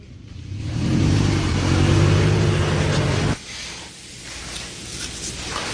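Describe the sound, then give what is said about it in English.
A car engine accelerates and revs loudly as the car drives away, holding a strong growl for a couple of seconds before abruptly dropping to a quieter, steady rumble. “There she goes, driving away, Mary Pelota”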